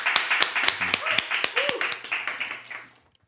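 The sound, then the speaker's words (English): Audience clapping to welcome a pastor to the stage at a church service: many crisp, rhythmic claps that thin out and fade to silence after about three seconds, with a voice briefly audible underneath. “Let's give him a big hand as we welcome to the stage today.”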